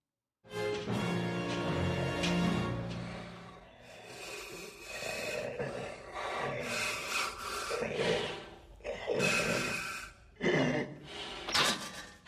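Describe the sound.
Heavy breathing through a mask, a series of loud, raspy, hissing breaths with a rough, scraping texture, repeating in uneven bursts for about twelve seconds without talk.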